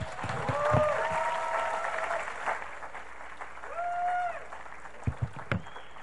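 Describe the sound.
Audience applause greeting a pastor as he comes on stage: a steady wash of clapping that holds at an even level throughout, with some voices mixed in.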